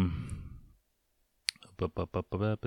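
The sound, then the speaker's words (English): A single sharp computer mouse click on links follows a noisy passage and a brief silence. Talking follows right after. “See, I gotta click on these. I forgot to label these links, so I don't know what the fuck.”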